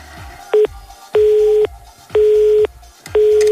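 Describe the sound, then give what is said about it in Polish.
Telephone busy tone after a disconnected call: four evenly spaced, steady mid-pitched beeps with equal gaps between them, the first one cut short. The beeps are loud and clear, with no talking. “No, tu nam się coś rozłączyło. To spróbujemy raz jeszcze.”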